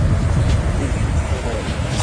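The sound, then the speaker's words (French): Steady deep roaring rumble of the earth at a huge sulphurous chasm, loud and continuous like heavy surf, with broad hissing noise layered over the low rumble. “On croirait le bruit de la mer, mais c'est le bruit de la terre.”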